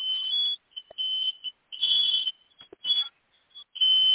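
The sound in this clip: A smoke detector goes off with loud, piercing high-pitched beeps in repeated bursts of uneven length, broken by short gaps.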